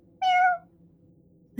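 A single short cat meow, clear and bright with a tone that dips slightly at the end. A faint low hum fills the quiet that follows.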